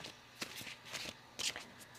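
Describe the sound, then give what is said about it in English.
Oracle cards being shuffled and drawn, a few faint, papery swishes and soft slaps spaced unevenly in otherwise quiet surroundings. “They want me to draw one last card to wrap it up.”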